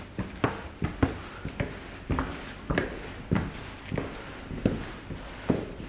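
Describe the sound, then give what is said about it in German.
Footsteps climbing a staircase in a college building, many steady, evenly spaced soft thuds in a regular walking rhythm, with no talking. “Gehen wir hier die Treppe rauf.”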